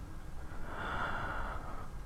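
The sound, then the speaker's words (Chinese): A deep, slow inhale: one steady, airy draw of breath lasting about two seconds. It is soft and quiet, with no voice. “深深缓慢的吸气，”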